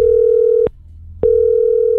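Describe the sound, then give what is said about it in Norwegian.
Telephone tone while calling a listener: a loud, steady, mid-pitched tone that cuts off once for about half a second, then resumes unchanged until the end. “nå skal vi slå på tråden til en som skal få billetter”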